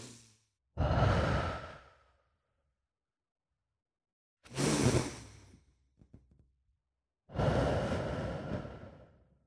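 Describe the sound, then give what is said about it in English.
Three deep breaths drawn and let out in turn, each a long, loud, breathy exhale like a sigh that fades away, with silent pauses between them and no talking. “So time for deep breaths.”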